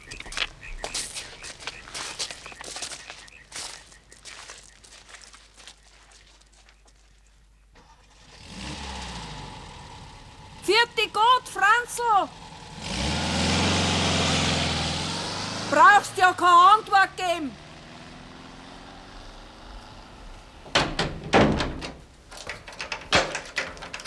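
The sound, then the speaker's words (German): A car engine idles, then the car pulls away quietly from a farmyard. A low rumble swells with a couple of brief revving surges, and scattered knocks and clicks come before and after. “Dann fährt der Franz leise da fort.”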